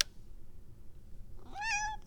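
A cat meows once, a short, clear, tonal cry that comes after near silence.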